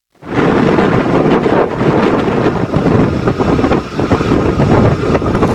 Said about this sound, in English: those of you with bat-like hearing might have noticed a whirring sound in amongst the wind noise. That's the sound of a vessel at sea fitted with rotor sails.